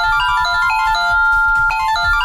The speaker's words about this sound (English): Got a call.